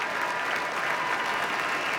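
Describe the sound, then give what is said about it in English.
Sustained applause from a concert audience giving a standing ovation to the Boston Symphony Orchestra and its soloists as they bow. The clapping is dense, loud and unbroken throughout. “Our artists bowing to the audience now, who are offering a standing ovation.”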